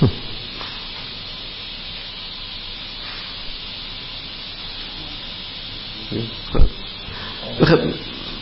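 Gas hisses steadily in a continuous, even rush of noise, with a few brief louder bumps toward the end.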